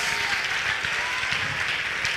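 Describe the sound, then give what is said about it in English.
Church audience clapping their hands during a lively service: a brisk, dense patter of applause stays steady throughout the short stretch. “I think you ought to clap your hands and shout hallelujah.”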